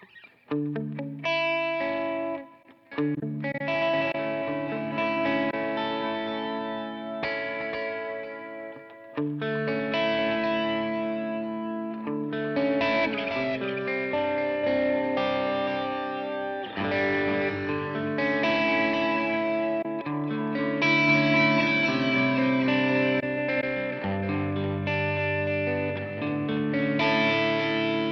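A guitar played through an HX Stomp multi-effects pedal set to fuzz and delay. Distorted, sustained chords and single notes ring with echoing tails for nearly half a minute, with a brief dip near the start and no talking.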